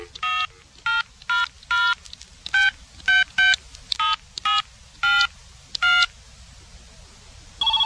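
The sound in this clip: Touch-tone keypad beeps as a 1-900 psychic hotline number is dialled: about a dozen short, clean electronic tones in a slightly uneven rhythm, with a longer pause before the last one, heard alone with no voices.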